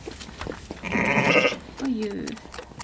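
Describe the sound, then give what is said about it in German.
A ewe bleats anxiously, calling for her lamb, with a few wavering, nasal bleats of moderate loudness. “Da hörst du jetzt gerade, sie sucht ihr Junges. Nicht die? Das da. Ist der Ruf nach, der besorgte Ruf nach einem Lamm.”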